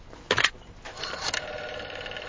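A telephone rings briefly in one short, bright burst, followed by softer, steady tones and low background hum.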